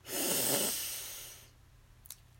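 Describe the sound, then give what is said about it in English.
A deep breath drawn in during a guided breathing exercise: one long, airy rush of air that swells quickly, holds for about a second, then fades away. “We'll breathe in, hold slightly at the top, and release with a loud sigh.”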